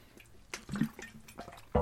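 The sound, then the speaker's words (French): A quiet sip of water, with a few soft liquid slurps and gulps and a sharper click at the end. “Et je prends une drink d'eau.”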